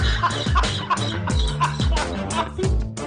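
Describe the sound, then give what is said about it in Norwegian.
Hen clucking in a rapid series of sharp, repeated clucks at a lively, uneven rhythm, fairly loud throughout. “høna klarer sikkert å lukte seg fram til kornet, da.”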